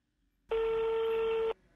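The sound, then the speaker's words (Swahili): A telephone busy signal sounds as a single steady electronic tone, one loud beep lasting about a second, heard alone against near silence. “namba unayopiga inatumika kwa sasa. Tafadhali jaribu tena baadaye.”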